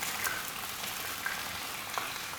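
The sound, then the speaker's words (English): Chopped onions and spices fry in hot olive oil in a pan, making a faint, steady sizzle with a few small pops and crackles and no talk. “heat the olive oil, then you put the spices, put the onion,”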